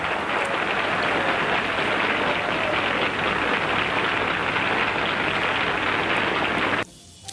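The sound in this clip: Audience applause after a live song on a 1940s jazz recording: a dense, hiss-like wash of clapping that stays steady and then cuts off abruptly just before the end.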